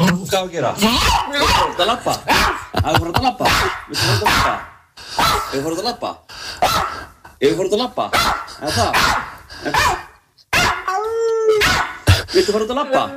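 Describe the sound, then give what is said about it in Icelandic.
A dog barking and howling excitedly at home, worked up about going for a walk: rapid loud barks and yips mixed with drawn-out, whining howls in a long, nearly continuous run. “Svona sem sagt hundurinn Mía á mínu heimili þegar ég segi orðið út að labba hún gjörsanlega tapa sér”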